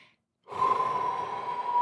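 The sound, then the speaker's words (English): A deep inhalation during a martial and meditative breathing exercise. After a brief silence, a steady, breathy rush of air starts and holds evenly to the end. “So we're going to breathe in.”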